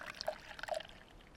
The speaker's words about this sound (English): Just pour a small amount at the base and save the rest in case you get thirsty too.